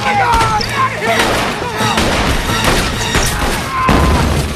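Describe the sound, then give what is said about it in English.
Dynamite blast destroying a paymaster wagon in a gout of flame and scattering debris: a loud, dense, sustained roar with crackling and rumbling throughout, without clearly separated bangs. “The paymaster wagon explodes in a gout of orange flame, scattering rangers and debris everywhere.”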